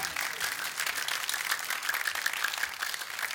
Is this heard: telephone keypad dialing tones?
no